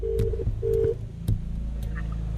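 Telephone keypad tones as a number is dialled: a few steady tone bursts and sharp clicks over a constant low hum.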